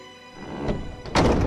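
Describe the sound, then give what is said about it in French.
A door bursts open with a crash: a dull thud, then a louder, heavier impact that rings on briefly. “Julien regardait en silence l'abbé qui relisait la démission, lorsque tout à coup la porte s'ouvrit avec fracas.”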